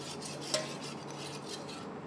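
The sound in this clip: Amino Ox powder being stirred into water makes a faint, steady swishing and scraping, with a single light clink of a utensil against the container.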